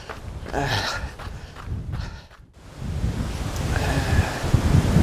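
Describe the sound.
Wind blowing hard into the microphone across open fields: a loud, low, buffeting rumble with a short lull in the middle before the gusts build up again.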